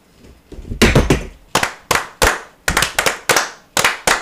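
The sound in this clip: Masonic fire: brethren clapping in unison as part of a ritual, many sharp, crisp claps in clustered groups with short pauses between them, loud and alone, without talk.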